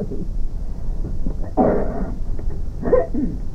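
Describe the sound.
A small dog barks: two short yaps stand out over a low, steady background noise.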